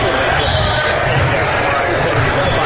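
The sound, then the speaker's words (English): A basketball dribbled during a game, its thumps buried in loud, dense crowd noise that fills the whole short stretch without a break. “Dribbling around, doesn't know what to do.”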